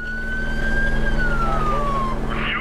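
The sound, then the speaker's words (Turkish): A siren wails on a customs patrol boat chasing an overloaded smuggling vessel. A single steady tone holds, then slides down in pitch over a constant low engine drone. “Sireni açıyorum.”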